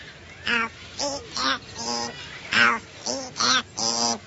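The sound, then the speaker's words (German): A parrot talks in a series of short, raspy, nasal squawking syllables, evenly spaced with brief pauses, harsh and high rather than clear words. “jetzt hat er Ihnen den Gefallen getan und hat was geredet. Auch wenn der Papagei Lore heißt und nicht Pumuckl”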